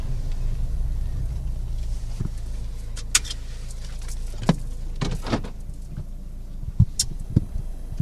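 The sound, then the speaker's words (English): A car pulling over: a steady low engine rumble with scattered faint clicks and rattles, and no voices. “They're pulling over.”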